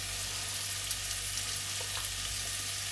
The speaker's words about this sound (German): einfach nur ein bisschen voranbraten. Und dann geben wir die 2 Esslöffel Paradeismark dazu.